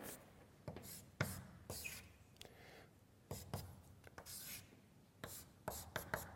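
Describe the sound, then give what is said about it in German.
Chalk writing on a blackboard during a chemistry lecture: many short, faint, scratchy strokes come in irregular bursts with brief pauses between them, and no one talks. “die ich an dieser Stelle einfach einmal so an die Tafel schreibe”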